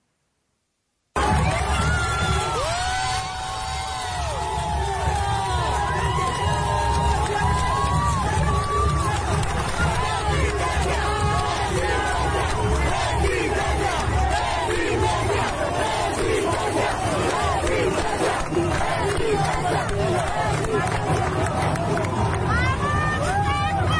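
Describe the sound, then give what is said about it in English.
Crowd cheering and shouting as dozens of masked, shield-carrying student protesters leave school in Cali to confront police. After a moment of silence, many voices roar continuously and loudly with overlapping cries. “In one video on Twitter, dozens of masked, shield-carrying student protesters were cheered on as they left school to confront police.”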